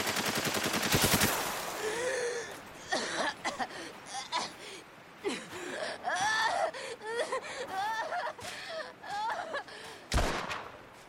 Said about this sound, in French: Moi, je vais tirer.